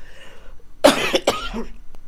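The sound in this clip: Two harsh coughs from a scratchy throat, quick and close together, followed by a faint throaty rasp. Neither carries talk.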